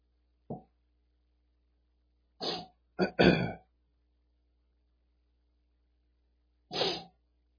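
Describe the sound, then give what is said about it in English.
A preacher clears his throat during a sermon, bothered by a tickle after raising his voice. A few short, rough throat-clearing bursts come alone in silence, two of them close together in the middle. “I knew I shouldn't raise my voice because then I would get a tickle.”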